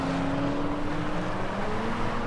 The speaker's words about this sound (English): runs alongside a car as it screeches out of the car park, following others down the road. He dashes after other cars heading off the other way.